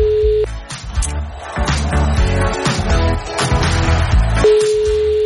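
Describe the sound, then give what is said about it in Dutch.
Telephone ringback tone while calling a listener back: a steady mid-pitched tone sounds at the start, breaks off under busier sound, then returns near the end. “Als ik nu een van die appers terug ga bellen, eens even kijken.”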